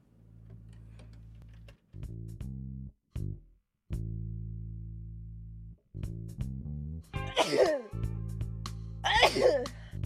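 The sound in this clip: Two sharp sneezes from a pollen allergy, sudden bursty exhalations heard near the end over steady, stop-start electronic tones.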